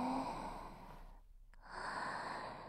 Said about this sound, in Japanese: ほーら、深呼吸吸って